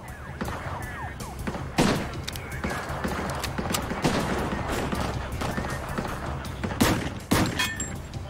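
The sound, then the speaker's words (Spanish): Gunfire in a shootout, with shots fired in both directions: many sharp cracks and thuds scattered over a dense, noisy din, with a few louder bangs standing out. “Ahora McLean le estaba disparando a los dos lados. Se giró y disparó hacia donde Bammel estaba parado.”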